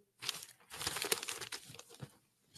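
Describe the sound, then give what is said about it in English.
Newspaper pages rustle and crinkle as they are handled: a run of dry, papery crackling bursts, fairly steady for about two seconds, then tapering off, with no talking. “This is the toilet paper record, the New York Times. Look at this.”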